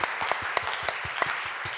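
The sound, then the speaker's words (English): An audience clapping their hands in praise during a church fasting service, with sharp, loud accented claps landing on a fairly regular beat over a continuous bed of many hands. “Oh, clap, clap, clap, clap for the Lord. Clap for the Lord. Clap for the Lord. Clap, clap, clap, clap, clap, clap.”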